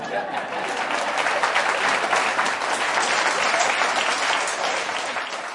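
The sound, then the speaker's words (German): Standing ovation applause fills a hall as an auxiliary bishop is welcomed: dense, continuous crowd clapping that stays loud and even from start to finish. “Ich glaube, für einen Bischof gibt es immer viele Erlebnisse, aber dass er mit Standing Ovation in einem Saal begrüßt wird, ist etwas Besonderes.”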